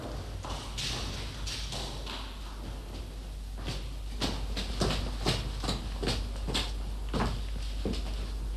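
Footsteps climb a dark stairway in a long run of many soft thuds and taps at a steady walking pace. They stay faint and are heard alone, with no voices.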